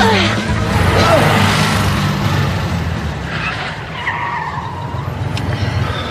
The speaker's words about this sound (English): You want to go for a ride in my Porsche? Fabulous!